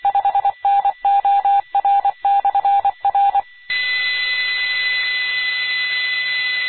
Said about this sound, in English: Anyway, I'm calling my wife right now.